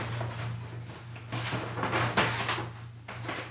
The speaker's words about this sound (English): We got a very large box here, and I'm opening the tape off the top of it here.